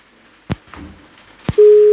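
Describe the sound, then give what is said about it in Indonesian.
A disconnected telephone call gives a busy tone: two sharp clicks, then a loud, steady, mid-pitched tone that holds to the end. “Aduh, sayang sekali sudah terhubung tapi terputus kembali.”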